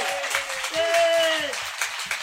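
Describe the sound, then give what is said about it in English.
Audience applause at an outdoor porch concert after a percussion set: a steady wash of clapping runs the whole way through, with a sustained tone and some voices mixed in. “So how about a very enthusiastic round of applause so Greg comes back next year.”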